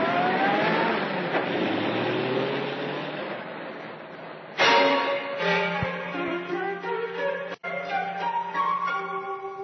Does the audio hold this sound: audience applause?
no

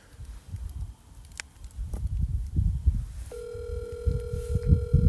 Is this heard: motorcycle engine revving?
no

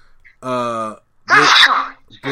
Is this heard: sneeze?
yes

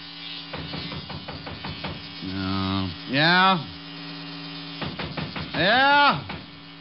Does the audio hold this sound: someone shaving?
yes

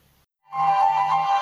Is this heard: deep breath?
no

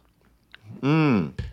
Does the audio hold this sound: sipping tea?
yes

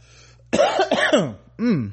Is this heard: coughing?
yes

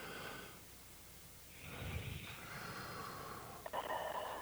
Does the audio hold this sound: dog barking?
no

